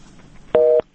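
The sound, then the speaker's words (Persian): A busy signal sounds after a listener's phone call drops: one loud, steady dual-pitch tone burst lasting about a quarter second, starting and stopping abruptly over a quiet line. “تماس از این شنونده ما قطع شده، بریم به شنونده بعدی.”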